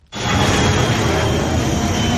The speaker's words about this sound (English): Planes that fly above are a reminder of how close this crash site is from the airport.